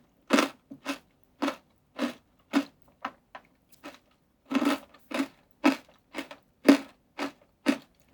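Crisp crunching bites of a cocoa-flavoured snack, many sharp crunches in a fairly steady chewing rhythm, with no talking.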